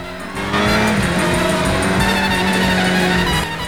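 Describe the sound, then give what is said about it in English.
A high-powered motorbike roars along the road. After a short quieter lead-in, its engine settles into a loud, sustained, steady roar that holds until the end. “Now she's roaring along the road on a high-powered yellow motorbike”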